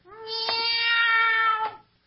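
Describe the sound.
A person imitating a cat's meow from behind a hedge: one drawn-out, steady, nasal meow with a clear tone, heard alone.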